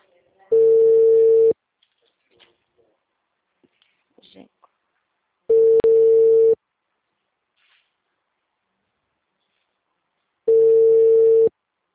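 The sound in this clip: Telephone call tone on a call being routed to voicemail: three long, steady mid-pitched beeps, each about a second long, spaced roughly five seconds apart with near silence between them.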